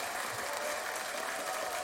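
Studio audience ovation, an even, continuous wash of clapping, fairly faint and lasting just under two seconds.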